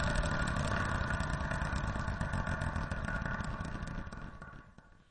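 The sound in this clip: A wheel spins to pick a random number, giving a dense, rapid rattle of clicks that holds steady, then fades and thins out near the end as the wheel slows.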